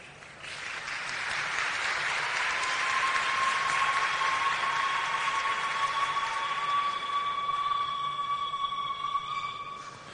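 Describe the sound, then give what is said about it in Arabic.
Applause at a celebration of exam success carries a woman's long, high, sustained ululation, a steady trilling tone that runs for several seconds over the dense, even clapping. “بيسقفوا لكم والأخت بزغرطتها كده طويلة، فيعني حاجة ممتازة خالص.”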